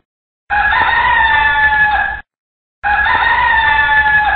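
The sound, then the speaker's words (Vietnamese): Jungle fowl crowing: two loud, drawn-out crows, each lasting nearly two seconds, separated by a short silence, with strong harmonic, slightly strained calls. “Tiếng gà rừng gáy buộc bọn quỷ phải ngừng cuộc vui.”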